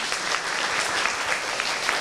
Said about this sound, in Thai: คนไหนถูกปรบมือให้ตัวเองด้วยครับ